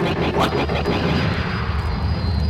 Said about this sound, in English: Suddenly, a familiar ship swooped down and sent Vader's fighters spinning off into space.